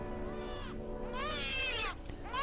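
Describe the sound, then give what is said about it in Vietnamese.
A newborn baby cries in faint, drawn-out wails that rise and fall in pitch, with a few wailing bursts separated by short breaths. “Chỉ biết là cái tiếng trẻ sơ sinh kêu gào thảm thiết lắm, xoáy vào tâm hồn của mỗi người.”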